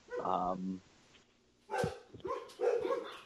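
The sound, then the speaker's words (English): Dogs bark in the background with a few short, sharp barks and yips in separate bursts, mixed with people talking. “the dogs in the background, apparently, about decoying. Fucking assholes. We're going to have to edit that out.”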